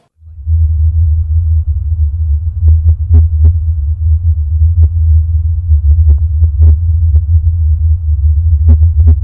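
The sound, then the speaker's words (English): A very deep rumbling hum, the mysterious low-frequency drone reported in various spots around the world, throbs loudly and continuously throughout. Scattered faint clicks sit on top of it. “people are hearing in various spots around the country and around the world a very low-frequency rumbling hum. And it sounds something like this.”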